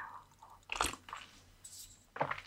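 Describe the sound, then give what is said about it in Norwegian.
Coffee being sipped as quietly as possible: a few soft, wet slurps and faint mouth sounds, with no talking. “Jeg prøver å drikke kaffe veldig stille, folkens.”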